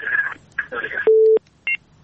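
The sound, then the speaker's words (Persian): Telephone line tones as a caller is connected to a radio call-in program: a stretch of garbled line noise, then a steady low beep and a short, higher dual-tone blip. “فکر میکنم بازم تماس تلفنی داریم.”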